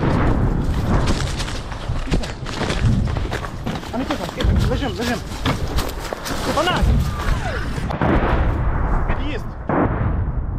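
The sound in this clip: Artillery shelling thunders around a deserted village street during a wartime rescue of trapped animals: heavy booms and thuds recur over a dense, loud rumble, with voices talking throughout.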